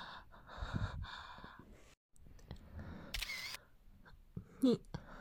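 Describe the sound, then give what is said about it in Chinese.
A camera takes a photo with a single sharp shutter click, surrounded by heavy breathing and gasps. “你怎么可以拍照？”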